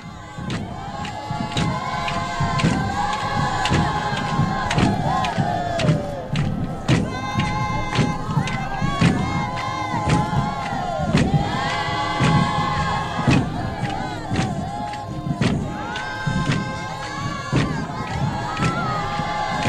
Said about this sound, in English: But when you see over 1,000 Zulu men, women, and young people dance to the Lord on the crown of an African hill, you must envy their ability to remain African in so vivid, sincere, and devoted a fashion, true to their age-old belief in the virtue of religious dancing. And this is the sound of their Zulu Christian dancing.